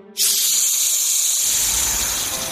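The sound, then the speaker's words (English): Steam engines blowing out steam: a loud, steady hiss that bursts in abruptly and holds strong for over two seconds, with no voices. “they blew out steam as hard as they could. Clouds of fluffy white steam filled the air.”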